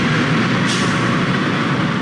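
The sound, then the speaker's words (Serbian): Steady drone of a bus carrying about 80 refugees as it stops near the Horgoš border crossing, a loud, continuous engine rumble with no talk. “Autobus sa oko 80 izbeglih iz država Bliskog istoka zaustavlja se na oko 4 km od graničnog prelaza Horgoš.”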